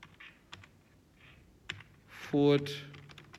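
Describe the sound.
Keys click sparsely on a computer keyboard as a city name is typed into an online exercise form, with a few scattered taps and a voice speaking quietly.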